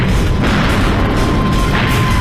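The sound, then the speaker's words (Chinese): Bombs exploding on an aircraft carrier: a loud, continuous, dense roar of booming rumble with no clear pauses between blasts. “紧接着，四枚炸弹又击中加贺号航母，炸死了其驾驶楼里所有的人，点燃了舰上的飞机，并在舰体深处燃起大火。”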